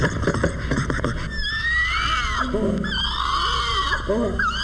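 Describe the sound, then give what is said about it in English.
Baby orangutan crying at a children's zoo in San Diego. Several high, wavering, drawn-out wails rise and fall over a constant low hum, after a short patch of scattered clicks at the start. “This is the crying of Roberta, the San Diego Children's Zoo's baby orangutan.”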